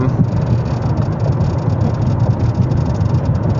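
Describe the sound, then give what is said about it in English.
A car suddenly making a lot of noise gives off a loud, steady engine-like roar with a deep low rumble that holds unchanged throughout, without voices. “I do not know why in the world this car is making so much noise all of a sudden.”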